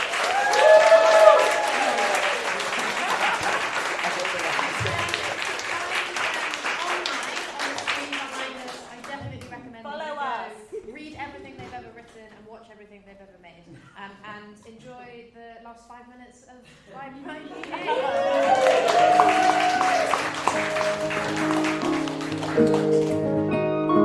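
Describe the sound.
Audience applause, with sustained bursts of clapping at the start and again at the end, and a voice talking in the quieter stretch between them.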